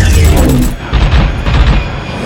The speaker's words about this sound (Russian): Истребитель свечой взмывает вверх, делает петлю, заходит к неприятелю с тыла и открывает огонь.